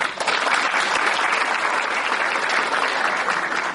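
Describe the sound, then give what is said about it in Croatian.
Applause from an audience at a cultural event held with local schools in Andrijevica, dense, steady and fairly loud throughout the few seconds, with no voices standing out. “Jedan aplauz.”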